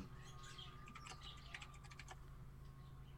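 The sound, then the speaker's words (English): Rapid typing on a computer keyboard: many quick, light keystroke clicks in uneven bursts, faint and steady throughout. “Let me just type it in.”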